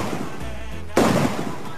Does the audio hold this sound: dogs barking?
no